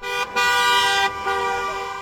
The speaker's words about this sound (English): waving American flags and holding signs as supporters honked in passing